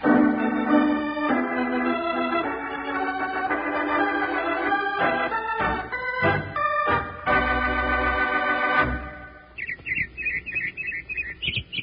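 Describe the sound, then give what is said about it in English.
A robin's song: bright, repeated high chirping phrases at the end, after a stretch of music fades out. “That's a robin singing.”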